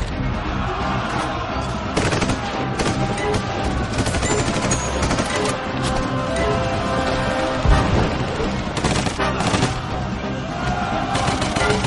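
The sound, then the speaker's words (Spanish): Machine gun fire in a 2015 World War II war drama: dense, continuous bursts of loud, rapid shots and sharp cracks that run without pause through the whole stretch. “Carl introduce la munición en la ametralladora. Los rusos corren hacia él. Carl les dispara.”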